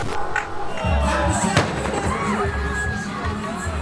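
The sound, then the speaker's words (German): A bomb explosion at a crowded assembly square during a Kurdish gathering: one sharp, heavy blast cuts through ongoing crowd noise, and voices and shouting continue around it. “Eine gewaltige Explosion erschüttert den Versammlungsplatz. Knapp 50 Meter von uns entfernt steigt eine schwarze Rauchwolke hoch. Die Menschen sind konsterniert, viele schockiert. 2 Bomben sind hochgegangen.”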